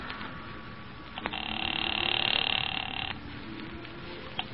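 A telephone rings once after an operator places a call, a single buzzing ring lasting about two seconds over a constant background hiss, with quiet line noise before and after.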